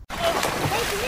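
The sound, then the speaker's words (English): Water splashing in a swimming pool, a continuous bright sloshing and spattering with voices mixed in. “Do you hear that? Splashing in the pool, laughter, fun. It's all the sound of summer.”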